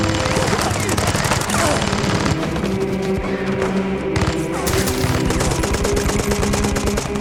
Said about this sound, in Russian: Пулемет косит немцев, как траву.